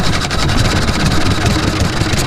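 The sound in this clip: An Olympia 3.5 horsepower engine runs with a loud, steady droning throb and dense mechanical rattle, holding an even level throughout with no talk.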